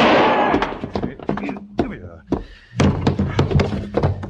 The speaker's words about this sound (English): Shooting's over. Give me back my rifle. Can't you see I only winged him?